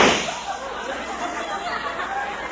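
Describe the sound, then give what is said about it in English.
A gunshot from a small handheld gadget gives one sharp bang at the very start, followed by a lingering hissy, noisy tail. “Now I grasp it here. I aim it, and I pull the trigger.”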